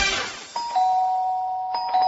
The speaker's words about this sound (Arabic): ده مين قليل الذوق اللي مش عايز يشيل ايده من على جرس الباب ده؟